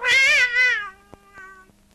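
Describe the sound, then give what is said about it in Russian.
A Siamese cat gives one drawn-out meow, loud and nasal at first, then trailing off fainter, followed by a couple of soft clicks. “Какой кот у вас жуткий?”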